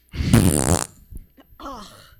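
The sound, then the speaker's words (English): A single loud, sputtering fart from a husband as he leaves after a domestic argument. It is a buzzy, rippling blast lasting about half a second, followed by quieter sounds. “Husband leaves. Farts.”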